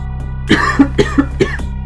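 A person coughs and clears their throat in about five short, sharp bursts spaced evenly over a second, loud and alone with no talk around them.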